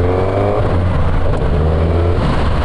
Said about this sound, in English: I'm going to change gear now without using the clutch, so here we go.